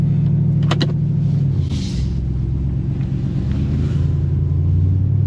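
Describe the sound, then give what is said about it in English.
A TRX pickup truck is being driven, giving a constant low engine and road rumble mixed with wind noise. A brief airy whoosh passes midway through the steady drone. “So the story behind this TRX that I'm driving today.”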